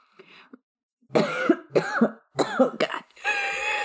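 A person coughs after breathing in spit: a few harsh, choking coughs in quick succession, ending in a strained, voiced sound.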